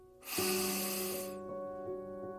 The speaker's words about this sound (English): Let's take a deep breath.